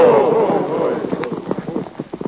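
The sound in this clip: Horses galloping away in a rapid, uneven clatter of many hoofbeats, opening with a loud burst of rushing noise before the hoof rhythm takes over.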